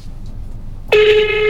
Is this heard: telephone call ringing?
yes